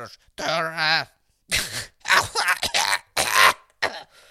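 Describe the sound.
A smoker coughs in a few loud, raspy, hacking bursts separated by short silences, with a groaning, voiced strain in the first burst.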